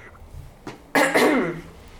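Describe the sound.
A person clears their throat: a faint rasp, then two loud, rough bursts in quick succession trailing into a gravelly voiced tail, heard alone with no talk.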